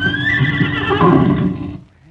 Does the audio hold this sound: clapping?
no